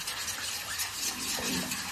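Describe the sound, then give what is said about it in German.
A spoon stirring Stosuppe in a pot, mixing it smooth so no lumps form. It makes a continuous, moderately loud scraping and swishing with a faint sizzle-like hiss, and no talk. “Und jetzt muss man es nochmal schön umrühren. Schön verrühren.”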